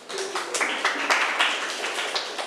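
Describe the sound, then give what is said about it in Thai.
Students clap for a classmate during a lesson. The burst is scattered and uneven, with many overlapping claps at moderate loudness, thin rather than a full roar. “เก่งมากค่ะปรบมือให้เพื่อนหน่อยค่ะ”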